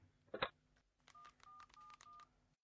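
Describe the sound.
Four short DTMF beeps sound as 1471 is dialled on a telephone keypad, in a quick, even rhythm after a brief clatter and a pause.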